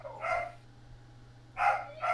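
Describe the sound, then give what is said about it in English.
Dogs bark three times: one sharp bark, a pause of over a second, then two quick barks close together. A low, steady hum runs beneath throughout. “Who has the barking dogs?”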